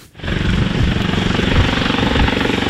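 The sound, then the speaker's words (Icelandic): An Icelandic Coast Guard helicopter flies with a loud, steady rotor roar and fast, rhythmic beating that holds evenly throughout, with no voices. “það tók þyrlu landhelgisgæslunar 80 mínútur að fljúga frá Reykjavík Ásleifsstað á Jökuldal á laugardaginn.”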